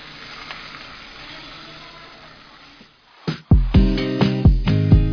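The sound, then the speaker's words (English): A thick steak fries in a cast iron skillet with a continuous, hissing sizzle that slowly fades. It then gives way to a series of loud, rhythmic tonal hits. “Did cooking a steak in our cast iron skillet create a savory success?”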